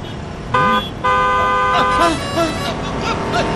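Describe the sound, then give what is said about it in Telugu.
A car horn honks on a street, a short blast followed by a longer sustained one, with people talking around it. “Horn కొట్టినా మీకు వినిపించడం లేదు”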